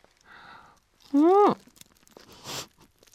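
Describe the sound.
Crunchy bite into crispy-shelled Gindaco takoyaki with sauce: a short crisp crunch follows a loud voiced exclamation, with faint chewing and rustling around it.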